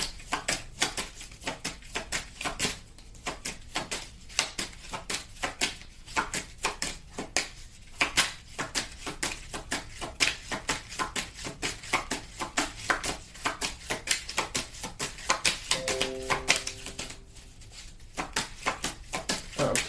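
A deck of cards being shuffled before one is drawn: many soft, rapid papery clicks and flutters that run continuously at a faint level, with no talk.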